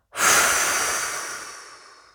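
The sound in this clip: A single slow exhalation during a relaxation breathing exercise: a long, breathy rush of air that starts strongly and gradually fades over about two seconds, with no voice.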